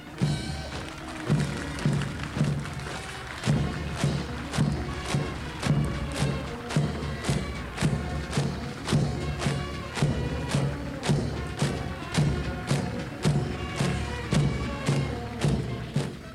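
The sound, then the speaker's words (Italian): Soldiers march in a parade with martial steps: many heavy, rhythmic thuds fall on a steady, even beat throughout, each stride landing firmly in unison. “fare da contrasto con la danza dei giannizzeri, ecco il passo marziale dei soldati di oggi.”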